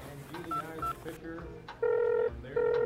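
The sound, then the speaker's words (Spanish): Telephone keypad tones sound as someone dials a call: a few short dual-tone beeps, then two longer sustained tones, with faint voices underneath. “Solo hago una llamada rápidamente y ya estaré listo.”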